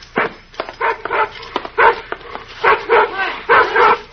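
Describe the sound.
Bullet the dog barks in a rapid series of many sharp, excited barks and yips, loud and uneven in rhythm with brief gaps between bursts.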